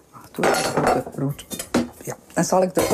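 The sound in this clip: Clinking and clattering of an oven dish and utensils as boiled, cooled sheets are laid into the dish while cooking, with a pot of water heating and butter melting with flour; sharp clinks come in quick bursts under a talking voice.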